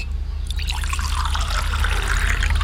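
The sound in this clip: Water poured into a cup to make tea, a steady, continuous splashing trickle that holds at an even level throughout with no talk over it.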